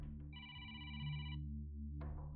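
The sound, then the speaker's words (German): A telephone rings again, the fifth time in a row from an anonymous prank caller: one bright, trilling ring burst over a steady low hum, then a brief tonal sound shortly after. “Das Telefon klingelt schon wieder. Das ist jetzt schon das 5. Mal.”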